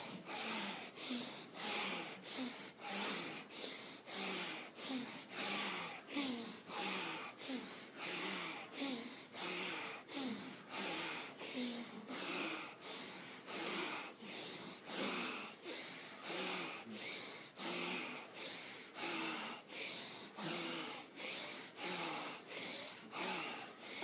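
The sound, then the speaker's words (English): Rasping breaths taken during yoga twists, one after another in a fast, even rhythm. Each breath is a short, noisy rush of air, and many follow without a break at a fairly faint level. “Inhale, twist to the left. Exhale to center. Feel into your spine. Bring your rasp breath to it now and begin.”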